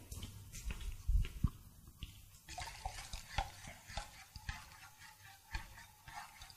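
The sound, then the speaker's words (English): A hot lye solution being stirred: faint, irregular scrapes and light taps that come and go in a quiet, uneven rhythm. “I'm going to come back and stir again.”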